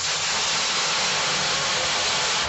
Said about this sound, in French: Hop, la plonge, le lavage. Voilà, ce qu'on appelle une douchette.